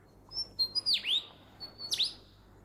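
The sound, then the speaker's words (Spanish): A forest bird mimics a camera shutter with quiet, high whistled notes, broken by two sharp downward-sweeping bursts about a second apart. “En su intento de superar a sus rivales, incorpora otros sonidos que escucha en el bosque. Ese era el obturador de una cámara.”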